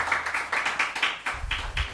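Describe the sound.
Hand clapping in a quick, fairly even run of many sharp claps lasting the whole moment, with a low rumble joining in the second half.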